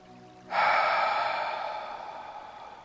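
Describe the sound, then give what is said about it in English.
A single long mouth breath during a breathwork exercise: a loud airy rush that starts abruptly, then slowly fades over about two seconds. “Inhale through the mouth. Exhale, release.”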